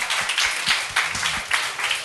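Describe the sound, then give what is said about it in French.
Audience applause at a stage show: a dense, steady patter of many hands clapping for about two seconds, with a few brief louder swells. “Ben, ça, on peut applaudir, Eric.”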